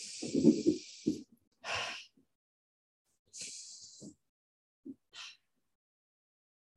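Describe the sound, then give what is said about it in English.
Slow, deliberate breathing, inhaling through the nose and exhaling through the mouth: a few soft, airy breath sounds separated by silent pauses, heard alone without talk. “It's an inhale through the nose and an exhale through the mouth. So imagining that halo, if you need a visual, for inhaling through the nose and out through the mouth. So it might sound something like”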